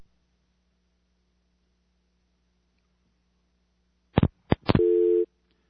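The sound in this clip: A telephone line after a caller's line has dropped: a few sharp clicks follow a long silence, then one short, steady mid-pitched tone sounds and cuts off.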